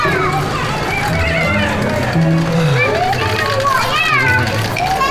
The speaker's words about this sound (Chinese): 哎呦，慢点跑。 我们这弄堂里的小孩啊，永远都精力这么充沛